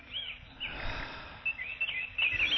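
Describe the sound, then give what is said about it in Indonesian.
Birds sing in a garden with faint, high chirps and short trills that grow more frequent toward the end, over a low background rumble. “Menikmati kicau burung, mendengarkan gemericik air di kolam”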